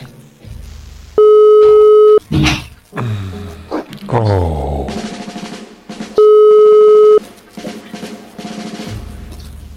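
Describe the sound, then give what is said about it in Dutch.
A WhatsApp call tone sounds as two loud, steady, even-pitched beeps of about a second each, several seconds apart, with other brief noises in between. “Ik was je aan het bellen, WhatsApp.”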